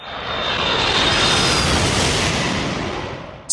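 An airplane taking off: a loud, sustained engine roar with a thin high whine riding on top, holding steady before cutting off abruptly.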